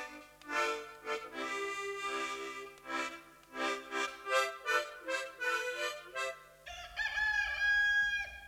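A rooster crows in a farmyard setting near chickens, giving several loud, strained, harmonic calls in a row that rise and fall in strength, with a shift in tone and some low rumble toward the end.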